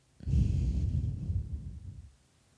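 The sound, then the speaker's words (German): A single deep, audible breath taken during a slow belly-breathing exercise: a soft, airy rush lasting about two seconds that swells then fades, heard alone without talk. “Also so richtig so tief einatmen, dass ihr ja merkt, wie der Bauch sich bewegt. Und beim Ausatmen”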